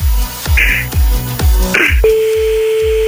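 Telephone dialing tones as a call is placed during a call-in game, a few beeps over rhythmic background music, followed by a sustained steady tone.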